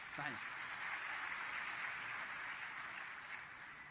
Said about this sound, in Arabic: صفقوا له يا إخوان